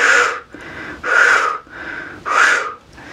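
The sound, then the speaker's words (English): Deep, slow breathing during a guided meditation: three loud, airy breaths in a steady rhythm, with softer breaths between them. “Deep breath.”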